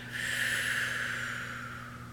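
A deep breath taken during a guided breathing exercise: a steady, airy hiss that swells quickly, then eases off and slowly fades over about two seconds, with no talk.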